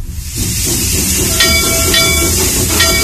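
Train sound effect, a loud, steady rolling rumble with a hiss running throughout.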